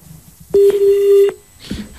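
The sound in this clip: A line tone sounds as a telephone call to a farm-advice phone-in program disconnects: a single loud, steady electronic beep lasting under a second, followed by faint background noise.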